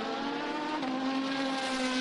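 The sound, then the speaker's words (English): A prototype race car passes on a racetrack while running side by side up a hill: a steady, droning engine note with bright harmonics, holding a fairly constant pitch and loudness throughout. “Side by side up the hill again, but not for position in that case. This is one of the prototypes coming through.”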